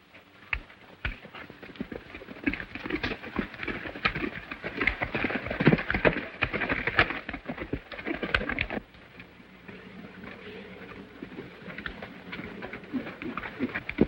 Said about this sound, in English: Leading a pony, he descends.